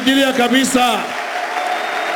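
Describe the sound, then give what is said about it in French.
A church audience applauding loudly. Raised voices ring out over the opening second, then a dense wash of clapping carries on to the end. “Nous allons l'acclamer très fort.”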